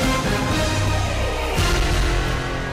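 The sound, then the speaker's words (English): A radio announcement sounder jingle plays loud and dense, with booming hits and bright tones that shift character about halfway through. “Let me get my announcement sounder.”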